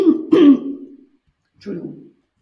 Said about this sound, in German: Ich muss einmal mich räuspern.